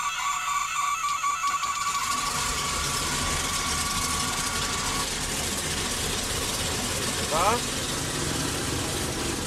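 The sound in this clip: An aircraft piston engine runs at idle with a loud, unbroken, rough rumble. A thin whining tone sits above it for the first half.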